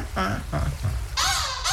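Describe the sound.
Laughing calls of a black-headed gull (Larus ridibundus): a couple of harsh, high, strongly harmonic cries that follow a few lower, voice-like sounds.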